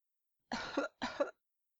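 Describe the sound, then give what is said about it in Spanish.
Two short, dry coughs come in quick succession, voiced by a performer for a flower character in a story, and are heard alone against silence. “La flor tosió, pero no porque estuviera resfriada.”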